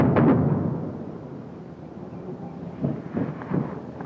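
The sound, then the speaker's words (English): Explosion from a close napalm airstrike, a loud deep rumbling blast at the start that fades into a low roar, followed by a few softer thuds. “That's too close. Airstrike.”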